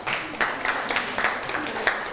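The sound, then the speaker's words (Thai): A group claps for classmates after a presentation on making food offerings to monks. The applause is moderate, with distinct individual claps and some talking over it. “ความสบายใจจากการถวายอาหารหรือภัตตาหารนะครับปรบมือให้กับเพื่อนหน่อยครับ”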